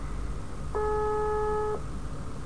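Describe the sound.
A single telephone ringback tone from an unanswered call. One steady electronic tone lasts about a second over a low background rumble, with no voices.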